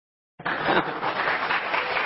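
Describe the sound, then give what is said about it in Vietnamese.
Audience applause breaks out abruptly after a short silence, then continues as a dense, steady wash of clapping at an even level to the end. “Hay quá ha. Ý của mình á, mời vỗ tay đi.”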